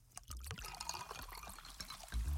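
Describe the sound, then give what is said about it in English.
Pepsi soda pours in a steady, bubbly stream of liquid that trickles and fizzes, ending with a louder, fuller splash, with no talk. “go ahead, crack open a Pepsi.”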